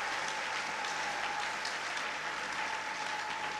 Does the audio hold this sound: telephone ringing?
no